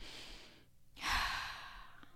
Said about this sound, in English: took a deep breath.